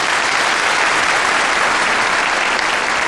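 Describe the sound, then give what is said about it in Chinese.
Dense, steady applause from an audience at an entertainment performance for military personnel, loud and continuous for the whole stretch without any pause or change. “非常感谢大家的掌声”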